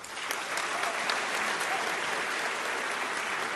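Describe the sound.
An audience applauds to welcome a debater, a former governor of California, at a live debate. The clapping is a steady, even wash of many hands that holds at one level from start to finish.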